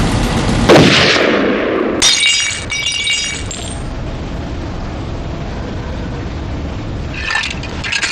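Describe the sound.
Gunshots from shooting practice at a firing line: a few loud, sharp cracks with brief ringing decays, standing out from a steady noisy background.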